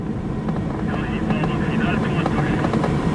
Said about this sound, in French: Le remorqueur Commodore rampe 2 secondes de plus. L'empennage frétillant, il rougit sous l'effort, puis Rouspéter, rageant de ses 180 chevaux, il lève son nez d'ivrogne et s'accroche dans le ciel.